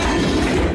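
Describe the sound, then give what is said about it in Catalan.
Guardia Civil officers break down the door of a house that served as the base of a sexual exploitation network in the Balearic Islands. A single loud, harsh crashing impact lasts under a second. “Aquest és el so dels agents de la Guàrdia Civil tomant la porta d'un domicili que funcionava com a base d'una xarxa d'explotació sexual a les Balears.”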